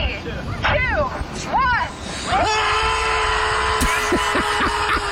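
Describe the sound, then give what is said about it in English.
A group of 100 people screaming together, with a few swooping vocal cries at first, then a loud, sustained massed scream that holds steady. “Now, I got to admit, I'm sure that feels damn good, right? Just to scream and let all of that frustration out.”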